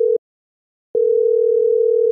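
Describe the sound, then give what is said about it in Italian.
Steady telephone dial tone heard while a number is dialed: a brief burst of the even, mid-pitched hum, a short silence, then a longer unbroken stretch of the same tone. “Faccio il numero di Carlo se lo prego di venire subito a prendere sua sorella.”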